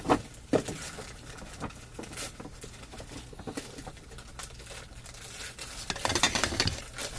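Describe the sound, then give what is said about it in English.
Plain brown envelope wrapping crinkles and tears as a birthday gift is opened, with irregular rustling, a few sharper crackles at the start and a denser flurry of crinkling near the end. “What's that? That fine, plain brown envelope wrapping that everyone loves.”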